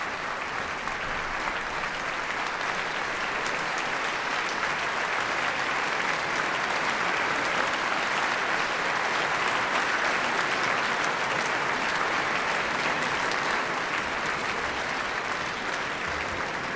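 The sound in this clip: Concert audience applause at a charity gala concert in the Philharmonie, Luxembourg: dense, steady clapping that holds an even level throughout, with no clear talk over it.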